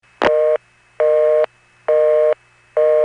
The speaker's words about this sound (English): And no discussion on NX1s is complete without the ubiquitous busy signal. The click you hear when it drops into the busy signal is kind of unique compared to other NX1 clicks.